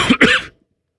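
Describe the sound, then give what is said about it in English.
A person coughs twice in quick succession, two loud, rough bursts lasting about half a second before silence. “I coughed out feathers.”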